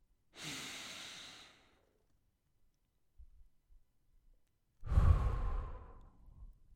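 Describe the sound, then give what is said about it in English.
A slow, breathy inhale is followed by a few seconds of near silence while the breath is held, then a longer, fuller exhale through the mouth; quiet and soft, with no talking. “Hold it for a second and then exhale through your mouth.”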